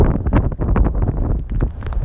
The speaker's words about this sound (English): This wind is getting stronger